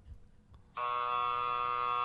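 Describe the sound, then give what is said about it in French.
A hockey-style period buzzer cuts in after a moment of faint background noise, then holds as a loud, harsh, steady electronic drone to the end. “Ce buzzer-là a de la misère”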